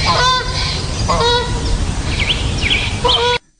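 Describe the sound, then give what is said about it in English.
A goose honks while flying overhead in the morning, giving a few loud, nasal calls over a constant rushing background. Higher, quicker chirps of other birds come in near the end before the sound cuts off abruptly. “That was a goose flying overhead in the morning, and you can hear the other birds in the background.”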